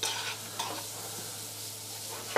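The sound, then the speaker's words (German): Food sizzling and simmering in a pan with olive oil and butter, a steady, soft hiss of frying with a few faint clicks of stirring. “Lassen wir ungefähr so 20 Sekunden ein bisschen so dahin köcheln.”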